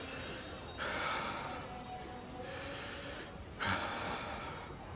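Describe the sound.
Heavy, gasping breathing from a person struggling to calm down in a film scene: two stronger, rough breaths stand out above a noisy background, with quieter breathing between them.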